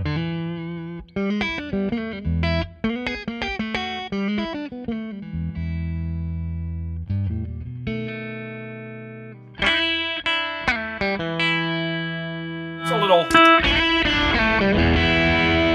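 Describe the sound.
Telecaster electric guitar played through an amp and miked from about four or five feet: plucked single notes and chord stabs with a bright, slightly driven tone, breaking into loud, ringing strummed chords near the end.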